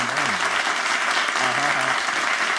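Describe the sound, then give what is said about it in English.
Steady clapping applause from a group of people, dense and continuous throughout, with voices talking over it. “Hey, there it is. This is some claps.”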